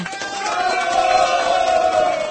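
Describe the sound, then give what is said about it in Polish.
A crowd of listeners cheering and clapping, a loud, sustained wash of voices and hands that swells through the middle and stays strong to the end, with no clear speech above it. “Chciałem ogłosić. Brawa!”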